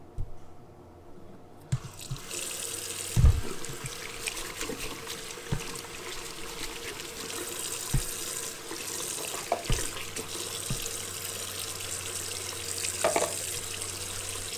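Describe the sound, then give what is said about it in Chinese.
Water runs from a tap while someone washes their hands. A steady, fairly soft hiss and trickle continues throughout, punctuated by a few scattered clicks and light knocks. “洗手真的很重要。”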